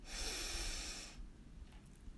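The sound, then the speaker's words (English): A deep breath during a guided meditation: a loud, airy hiss of inhaled air lasting about a second, then fading to a quiet, low rustle. “let's just take a deep breath in”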